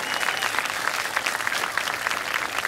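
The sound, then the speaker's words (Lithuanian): Applause from a crowd, a thick, even patter of many hands clapping at once, sustained and fairly loud from start to finish with no voices over it. “Tada plojam.”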